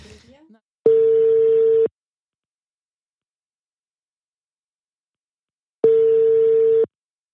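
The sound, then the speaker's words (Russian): Telephone ringback tone on an outgoing call: two steady single-pitch beeps, each about a second long, separated by roughly four seconds of silence. “Так, я буду звонить э, Саше Трюсяку.”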